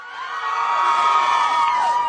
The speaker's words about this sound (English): Hundreds of fans gathered outside 2 army bases this morning as the singers RM and V were released.